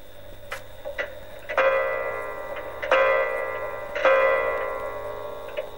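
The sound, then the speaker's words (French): An old clock, just found in a cupboard and wound up, ticks softly twice and then strikes three resonant chimes, each ringing out with rich overtones and slowly fading. “découvrit au fond d'une armoire une vieille horloge. Elle la remonta et s'aperçut qu'elle sonnait fort bien et marchait encore.”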